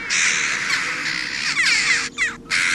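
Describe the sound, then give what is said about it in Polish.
Harsh cawing of black corvids, rooks or jackdaws rather than crows, in a city in autumn or winter: many rasping calls overlap in a dense, loud, steady chorus with two brief dips near the end. “jak lecą czarne ptaki i kraczą, chociaż to nie jest tam takie do końca krakanie, to na pewno nie są to wrony”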